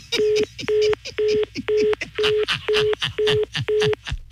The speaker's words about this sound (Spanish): Le marco otra vez, ¿ok? Le marco.